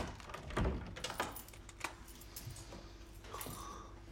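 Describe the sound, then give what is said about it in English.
An apartment door is locked in a darkened flat: a dull thump near the start, then a few faint clicks and a light rattle like keys, all quiet and low in level. “Will comes into his darkened apartment and locks the door.”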